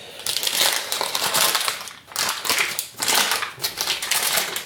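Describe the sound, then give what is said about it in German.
An onion is chopped with a knife in a kitchen, a dense run of crisp, crunchy cutting strokes that go on steadily with brief pauses in between. “Ja, die Zwiebel schneide ich hier gemütlich. Ihr hört.”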